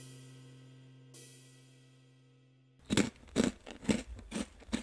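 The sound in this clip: Crunching of a zarame sugar-coated rice cracker: after a quiet stretch of low hum and one small click, a rapid series of sharp, crisp crunches from biting and chewing follows, each burst loud and brittle.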